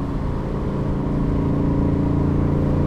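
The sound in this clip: A car engine under full throttle, revved hard toward 5,000 rpm while accelerating through the gears, producing a loud, steady, harmonically rich drone throughout.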